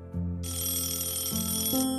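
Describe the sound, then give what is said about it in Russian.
A telephone rings on a desk, giving a continuous rattling electronic ring with a bright buzzy edge that holds steady while its lower tone steps in pitch a few times. “Раздалось дребезжание телефона, стоявшего на столе.”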